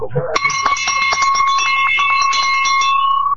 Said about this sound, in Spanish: Para los que se porten bien en el PERI le voy a regalar campanita.